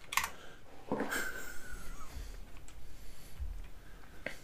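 Keyboard typing as someone enters a number guess in a quiz game: a handful of quiet, scattered key clicks with brief gaps between them, set against faint background noise.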